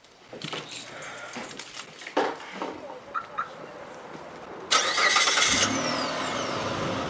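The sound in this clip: A car engine starts and the car drives on a street near Bridgeview, with scattered faint knocks and rattles before a sudden loud onset, then a steady, fairly loud engine and road rumble to the end.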